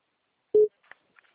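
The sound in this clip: A telephone call tone sounds on an outgoing call: one short, fairly loud low-pitched beep, followed by a few faint brief blips and clicks.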